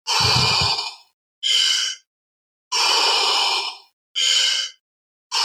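Loud breathing in and out during a breathing exercise: four long, airy breaths in a slow, steady rhythm with silent pauses between them, and a fifth starting at the end.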